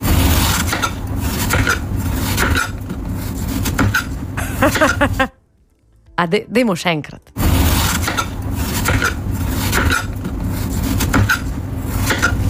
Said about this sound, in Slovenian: Ja, to je zvok rezanja lubenice.